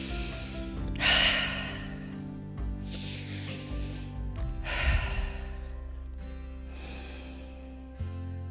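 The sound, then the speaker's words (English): Slow, deep breathing during a meditation, with a few long, airy breaths in and out at an unhurried, even pace. They are soft and steady, with no talking. “Take three nice deep breaths to bring ourselves into quietness.”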